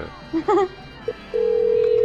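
A telephone ringing on a call: after a few short tonal blips, a steady, low-pitched ring tone begins partway through and holds unbroken to the end.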